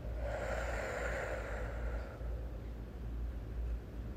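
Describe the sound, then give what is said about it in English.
A deep breath in and out during a guided meditation, slow and breathy, with a fuller airy rush in the first half that fades into a softer, noisy release, and no voices. “So let's try it again. Deep breath and out.”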